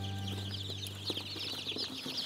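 Young chicks peep and chirp in a rapid, high-pitched chorus that runs the whole way through. The chirps sit over a low, steady hum, and no voices are heard.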